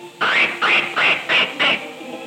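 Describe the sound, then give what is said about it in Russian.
A voice imitates a duck quacking, giving five evenly spaced, nasal, reedy quacks of similar loudness with short gaps between them. “Тут, видите, капитан утка. Конечно, она командует вот так.”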